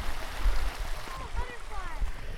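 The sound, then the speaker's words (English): Continuous rushing water from a river tumbling over rocks in a wood, sounding like a waterfall: a steady, full wash of noise with no pauses, rising and falling slightly in loudness. “It sounds like a waterfall”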